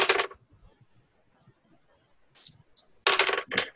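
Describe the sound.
Dice clatter across a table during a tabletop role-playing game: a few brief rattling bursts, the last ones louder and closer together, with near quiet in between.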